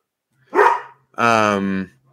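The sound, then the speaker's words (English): A dog barks twice, loud and alone: first a short, rough bark, then a longer, more tonal, drawn-out bark. “Sorry, that's my dog.”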